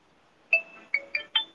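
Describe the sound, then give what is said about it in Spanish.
A phone ringtone plays four short, bright electronic notes, the first held longest and the last three in quicker succession, alone against near silence. “Ahí es que lo está llamando José María.”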